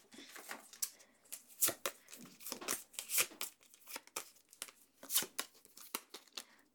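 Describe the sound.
Paper crinkling and rustling as a business card is handled and passed over: many sharp, dry crackles and snaps come in quick, uneven bursts, fairly quiet and with no talk.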